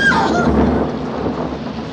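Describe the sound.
Thunder rolls through a storm with rain, a loud, continuous low rumble that fills both seconds without a break.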